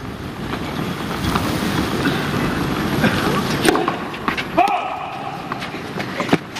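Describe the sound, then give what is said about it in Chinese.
Wind gusting across an outdoor tennis court on a cloudy, blustery day: a broad, rushing roar with a few sharp knocks and buffets toward the end. “现场就有点起风了。今天确实是一个多云多风的天气。”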